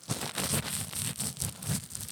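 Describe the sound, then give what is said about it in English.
A piece of paper is grabbed and handled, giving a continuous crinkling, rustling sound for about two seconds. “Let me grab a piece of paper here.”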